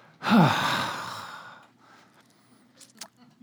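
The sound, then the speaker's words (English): A church audience groans together on cue during a talk about stewardship: one loud, drawn-out collective groan that swells quickly and then fades over about a second and a half, followed by faint rustling. “Let's go ahead and groan”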